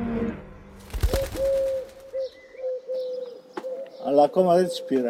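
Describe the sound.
Wild pigeons coo in a series of soft, low, hollow calls. Each coo is a drawn-out tone, repeated with short gaps in an unhurried rhythm.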